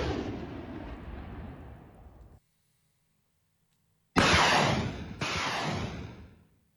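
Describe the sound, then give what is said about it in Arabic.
Heavy artillery and rocket launcher shelling of Houthi positions south of Marib, Yemen: a loud booming roar that slowly fades, then after a silent pause two heavy blasts in quick succession, each with a rumbling tail. “صوراً قالت إنها لقصف قواتها مواقع لجماعة الحوثي جنوبي مأرب بالمدفعية الثقيلة وراجمات الصواريخ”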